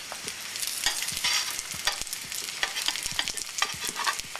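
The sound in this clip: Egg rolls fry in a pan, giving a steady crackling sizzle full of many small pops that goes on without a break and with no voices.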